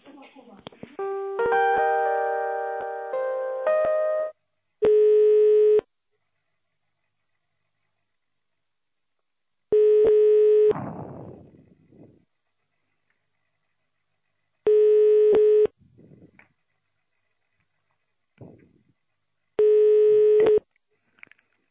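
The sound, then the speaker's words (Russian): Telephone busy signal on an engaged line: four identical steady beeps at one pitch, spaced several seconds apart, with a few other brief sounds in the gaps. “Линия занята, может быть, сейчас перейду.”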